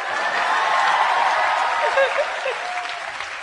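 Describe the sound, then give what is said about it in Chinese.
Audience applause breaks out at a live comedy performance, a dense, steady wash of many hands clapping that holds loud for the whole stretch and eases slightly toward the end. “为所有识表演默剧嘅妈妈鼓掌！”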